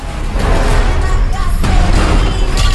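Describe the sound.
Bomb explosion from the Fast and Furious 10 trailer: a loud, dense roar that holds for the whole clip, with crackling bursts scattered through it.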